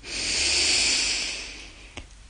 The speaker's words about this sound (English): Breathing in